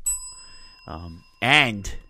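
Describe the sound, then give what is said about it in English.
A wrestling ring bell sounds at the start of a championship match, its bright, sustained metallic tone ringing on while a man talks over it. “Oh, ring the bell.”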